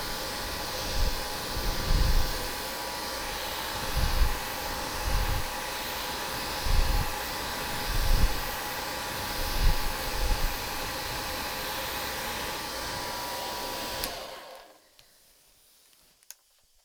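A hair dryer drying hair in a salon gives a steady, loud roar with recurring low rumbling swells. It runs for about fourteen seconds, then cuts off into near silence.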